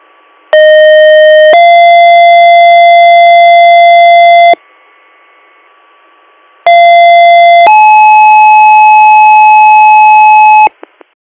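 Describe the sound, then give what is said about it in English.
Ambulance dispatch alert tones for a rescue station: two loud two-tone sequences, each a steady tone stepping up to a higher held tone for several seconds, separated by a short quieter gap, with no voices. “Oh, that's the rescue station 3 ambulance.”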